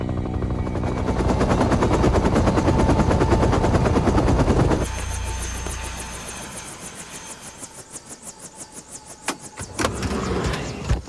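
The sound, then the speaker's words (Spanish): A military helicopter's rotor chops steadily over a loud engine whine at first, then eases into softer, evenly spaced blade thumps that swell louder again near the end. “Horas después de la votación, un helicóptero militar fue enviado a un lugar fuera de Medellín, donde Pablo estaba esperando.”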